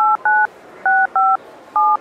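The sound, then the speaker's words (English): DTMF tones from a mobile phone automatically dialing a number after a spoken name: five loud, steady dual-pitch beeps of equal length, separated by uneven pauses, with no talking. “So you don't have to dial the number? You just say the name? Yes. You can say the name or the number. And the phone dials for you.”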